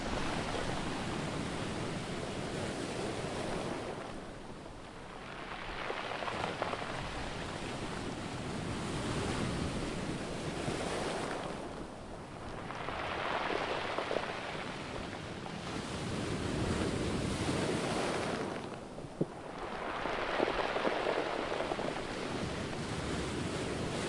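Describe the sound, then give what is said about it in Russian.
Sea waves roll onto a stony pebble beach below landslide slopes and then draw back. Broad, rushing surf swells and fades in a repeating cycle every several seconds, with a grainy hiss as each wave retreats over the stones. “Волна на камне накатывается, и при отступании волны очень интересный звук.”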